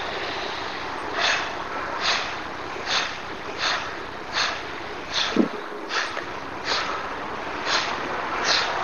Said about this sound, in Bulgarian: Мощно разтваряне на гърдите и освобождаване на дъха.